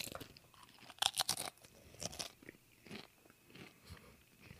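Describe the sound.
Crunching bites into Flamin' Hot barbecue Pringles chips: a few loud, crisp crunches close together, then softer chewing crackles that come and go.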